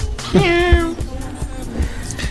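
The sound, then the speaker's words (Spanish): A cat meows once, a fairly loud, drawn-out call that starts with a slight upward scoop and holds a steady tone, followed by low, quiet background sounds. “nos preguntan que ¿y ese gatito que se escucha? Miau. Miau.”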